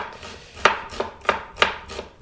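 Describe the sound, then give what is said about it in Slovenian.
Knife finely chopping onion on a board for Tyrolean dumplings before frying, a series of crisp, sharp chops at a steady, unhurried rhythm, heard alone without talk. “Čisto nadrobceno narezana čebula, ki jo bom potem ocvrl v ponvi.”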